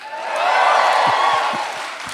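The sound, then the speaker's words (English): An audience at a live show in Los Angeles applauds and cheers in a dense, continuous roar that swells and then eases slightly, with scattered whoops in the mix. “I love being cheered for knowing what city I'm in.”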